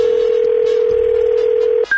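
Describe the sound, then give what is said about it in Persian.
A telephone line tone from a phone call being placed. One long, steady mid-pitched tone holds for nearly two seconds, then breaks briefly before a higher tone begins. No voices. “دوباره زنگ زدیم ببین چی شد”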